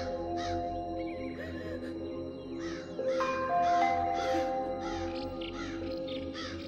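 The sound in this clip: Crows cawing overhead a desolate village under dark, churning clouds: many rough, repeated caws from several birds over a steady tonal drone, at a moderate level.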